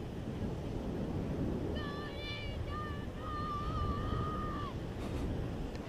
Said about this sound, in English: And you should also hear the waves, which will sound very much probably like white noise. It's a very steady wave sound,